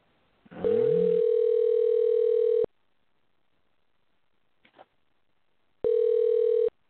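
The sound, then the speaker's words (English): Telephone line tones on an outgoing call: a long steady electronic tone of about two seconds, a silent gap with a brief faint burst, then a second, shorter identical tone. “All right, so it's dialing. Let's see if this works.”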